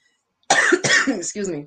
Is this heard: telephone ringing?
no

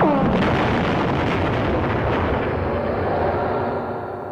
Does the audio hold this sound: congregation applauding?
no

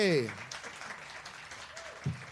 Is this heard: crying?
no

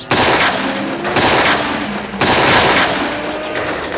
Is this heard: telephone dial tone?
no

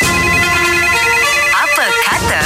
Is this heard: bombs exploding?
no

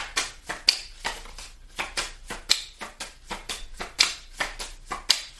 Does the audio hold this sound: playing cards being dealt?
yes

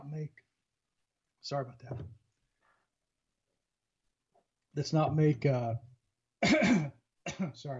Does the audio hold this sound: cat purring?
no

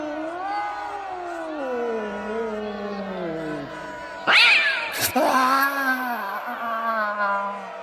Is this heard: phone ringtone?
no

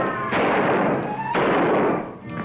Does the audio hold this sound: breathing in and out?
no

